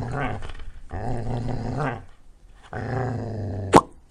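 A dog growls in three low, rumbling stretches separated by short pauses, then gives a brief, sharp burst of sound at the end.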